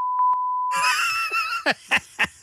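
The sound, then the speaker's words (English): A steady, high-pitched censor beep from a beep machine holds for under a second, with two brief louder pulses near its start, before giving way to other sounds. “They're going to be using that beep machine a lot if you continue with this.”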